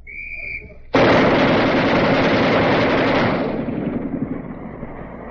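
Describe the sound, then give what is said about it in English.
The 60 caliber barrel of a twin-barrel machine gun fires one sudden, loud, sustained burst at a weapons demonstration, a roaring blast that holds for about two seconds before tailing off, preceded by a faint high whine. “that was the 60 caliber barrel firing it, but that gun, machine gun, has two barrels”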